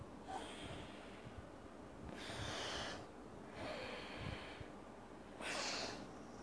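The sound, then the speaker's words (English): Faint, slow breaths through the nose during an alternate-nostril breathing exercise, drawn in through the left nostril and let out through the right. A few soft, airy inhales and exhales rise and fade with pauses between them. “inhale via left nostril, release it with the right nostril.”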